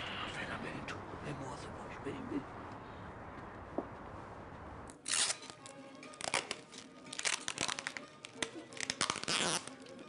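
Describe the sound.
Paper crinkles, rustles and tears as a gift is wrapped, with many sharp crackling bursts filling the second half after a quieter, murkier stretch with faint voices.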